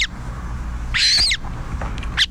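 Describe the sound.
Calls of a Montagu's harrier, a rare raptor: a drawn-out, high, shrill call in the middle, with shorter sharp calls at the start and end, over a steady low rumbling background.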